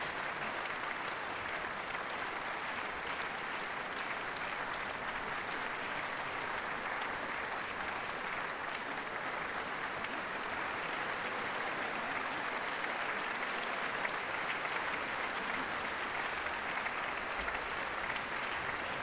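Sustained applause from a concert audience for a philharmonic orchestra and its chief conductor, a dense, even wash of clapping that continues without a break for the whole stretch.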